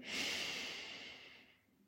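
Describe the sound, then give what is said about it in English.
A slow, deep breath during a guided relaxation exercise: one long, soft, airy rush of breath that holds steady, then gradually fades toward the end. “Take a deep breath in,”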